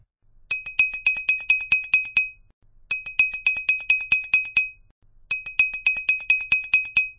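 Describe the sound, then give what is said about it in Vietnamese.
An electric doorbell rings late at night in three separate bursts, each a rapid run of bright, high metallic strikes, with short silent gaps between the bursts and no voices. “Đúng vào lúc đó, tiếng chuông vang lên.”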